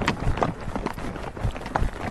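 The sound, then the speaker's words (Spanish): A horse trots during a riding outing, its hooves making a quick, even, fairly faint beat throughout. “Venga, pues salimos. ¡Trote! ¡Hop!”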